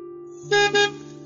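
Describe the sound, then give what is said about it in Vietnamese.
A passing timber truck sounds its horn in two short, loud honks in quick succession over a low engine hum, then the hum carries on alone. “Trên đường trở về nhà thì đột nhiên có tiếng còi của xe chở gỗ đi qua.”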